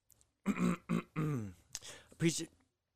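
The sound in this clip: A person clearing their throat in a few short, loud, voiced rasping bursts, the last pushes rougher and breathier before it trails off into silence.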